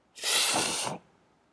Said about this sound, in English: And the sniffing is also due to some serious habanero hot sauce that I put in as well.